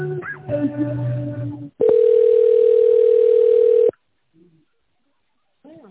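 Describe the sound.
A telephone tone plays while a call is transferred: one steady, continuous beep lasting about two seconds. Brief voices come before it, and faint voices follow after a gap of near silence.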